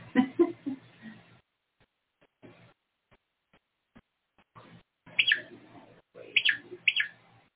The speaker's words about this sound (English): The birds are chirping over here. Yeah, they are. Can't tell whether those are sparrows or robins.